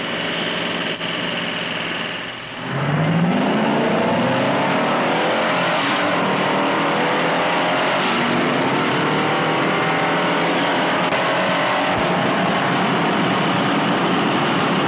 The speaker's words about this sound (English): A professional driver will be at the wheel of the Galaxy, but a non-professional will handle the Impala. Watch.